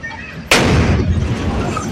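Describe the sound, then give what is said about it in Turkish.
An explosion from a kitchen fire in a second-floor home of a four-story building in Darıca, Kocaeli. One sudden loud boom is followed by a sustained noisy, rumbling tail. “Önce duman yükseldi, ardından bir anda bomba gibi patladı.”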